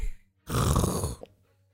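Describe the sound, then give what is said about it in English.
A door clatters open in a single rough, rasping burst lasting under a second. It is loud against near silence and ends in a brief faint tap. “Door like clatters open.”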